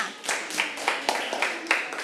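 Children in a classroom clapping for each group: a rhythmic series of sharp, evenly spaced claps in unison, moderately loud, with quieter fill between the beats.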